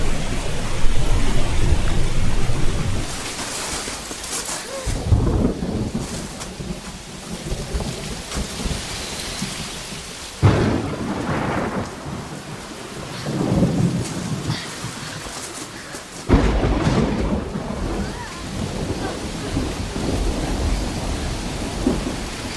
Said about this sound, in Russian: Начинается гроза.